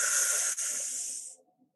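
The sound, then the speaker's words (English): A deep, full inhalation during a guided breathing exercise: a single steady airy hiss lasting over a second, then fading to quiet. “On this next breath, take a full breath in.”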